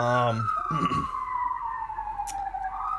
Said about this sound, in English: The sirens are loud. Pardon the sirens in the background.